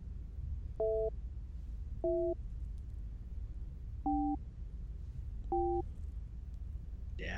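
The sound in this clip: A telephone busy signal heard after dialing a number: four short two-tone beeps, quiet and spaced unevenly, over a constant low hiss.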